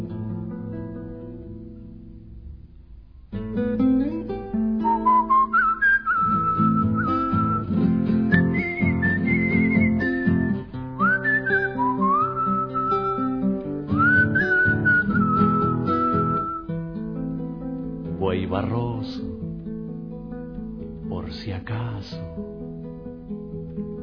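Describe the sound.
A person whistles a melody of sliding, rising notes over steady instrumental accompaniment, ending with a couple of sharp upward whistle sweeps.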